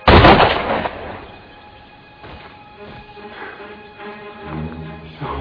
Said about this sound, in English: Lord Dowdy! They just shot him.